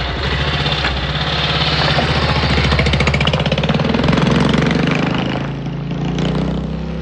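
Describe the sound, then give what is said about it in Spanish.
A motorcycle pulling away down a dirt road: a loud, fast, rattling engine putter that runs without a break, its pitch rising slightly midway. “pisa el pedal de su moto y se aleja por la carretera de tierra.”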